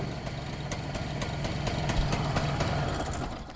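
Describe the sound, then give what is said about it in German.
A small diesel utility truck, a Dieselameise at an industrial museum, idles with a steady low rumble and a continuous chugging vibration that swells slightly near the middle. “Ein weiteres Schmuckstück im Industriemuseum Ludwigsfelde ist die Dieselameise.”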